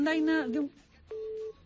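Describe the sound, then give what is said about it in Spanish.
Electronic telephone-line tones from malfunctioning phones: a warbling, buzzy harmonic tone, then a short gap and one steady, flat beep. “¿Qué tenían hoy nuestros teléfonos? ¿Qué tienen hoy las líneas que se vuelven locas?”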